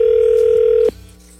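A steady, pure ring tone from an outgoing telephone call sounds for under a second, then cuts off abruptly, leaving faint line hum.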